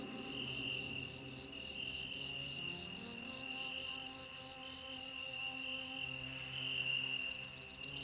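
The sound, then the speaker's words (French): A small black cricket chirps in a steady, rapid pulsing rhythm, with high, bright, evenly repeated bursts that continue throughout over a faint low background. “Un petit grillon noir.”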